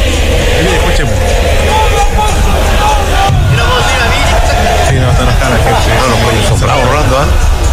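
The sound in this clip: Crowd chanting at a football match involving Antofagasta, a dense, loud and continuous wall of voices with a commentator talking over it.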